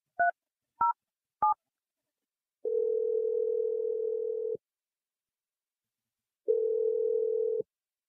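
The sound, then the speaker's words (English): Telephone dialing: three quick keypad tones, then two long, steady low tones separated by silence, with no voices. “Let's just dial her number. Here we go.”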